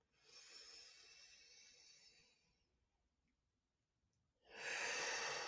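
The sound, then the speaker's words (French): A person takes a deep breath in to fill the lungs and then releases it in a guided breathing exercise. A long, faint airy inhale fades to near silence before a sudden, much louder rushing exhale. “On peut le refaire une deuxième fois. On inspire.”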